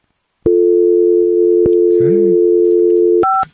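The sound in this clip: Steady telephone dial tone on an outside line: a loud, continuous low dual-tone hum lasting about three seconds, broken by a couple of clicks and ending in brief, higher beeps.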